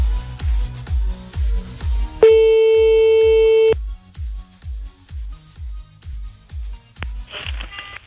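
Telephone line tone as a call is placed again: a single steady, high tone lasting about a second and a half, set against a regular, low, pulsing beat that runs throughout.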